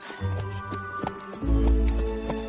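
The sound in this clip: Hooves of a donkey and a horse walking side by side on the way home, a steady, moderately quiet run of clip-clop steps over a low, rumbling background.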